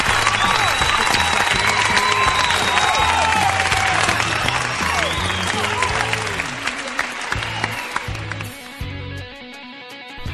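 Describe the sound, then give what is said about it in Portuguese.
Dense crowd applause in appreciation of a person, a steady wash of many hands clapping that holds loud for most of the stretch, then thins and softens near the end. “Aplausos para Galvão Bueno.”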